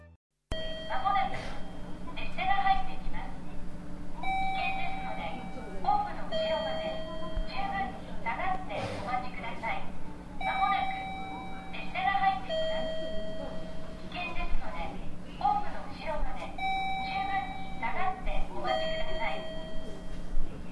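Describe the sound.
Short electronic chime phrases repeat every few seconds over a steady low hum on the platform at Shiraoi station, where a two-car local train is due to arrive. An announcement voice is heard between the chimes.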